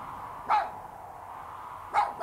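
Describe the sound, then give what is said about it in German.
Dog barking: two short barks about a second and a half apart, moderately loud over a steady low background hum. “Ich glaubte, das Gebell von Flores Magon zu hören, und es war wie ein Erwachen.”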